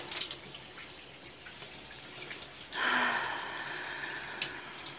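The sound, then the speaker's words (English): Water runs from a shower head while someone is rinsed off, a soft, steady hiss that swells into a fuller, louder spray partway through. “Let me get this shower head. And rinse you off.”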